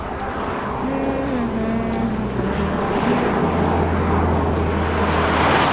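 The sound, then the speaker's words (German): A station wagon's engine roars with a steady, loud rush of wind-like noise, and a deep low hum grows stronger in the second half. “Der Kombi fährt direkt auf das Rücklicht zu.”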